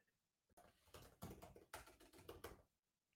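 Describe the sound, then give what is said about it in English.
Typing on a computer keyboard: a faint, rapid clatter of many keystrokes in quick, uneven bursts, then a brief pause at the end. “Can't even type today.”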